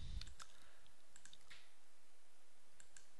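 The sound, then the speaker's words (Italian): Faint computer mouse clicks sound during a right-click in a database model designer, a few soft, sharp ticks scattered across an otherwise quiet stretch. “Clicco con il tasto destro Add Function Import.”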